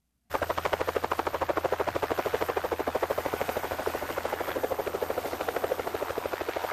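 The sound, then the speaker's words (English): Helicopter rotor chop over open tundra on the north slope of Alaska's Brooks Range: a loud, rapid, steady beat of thumping blade pulses with engine whine, continuing evenly throughout with no voices. “That's the helicopter flying away”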